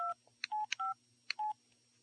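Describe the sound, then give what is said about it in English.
Cell phone keypad tones while typing a text message: four short electronic beeps of differing pitch, interspersed with sharp clicks, in an uneven rhythm with no talk. “Pull out your cell phone and type in healthy toys”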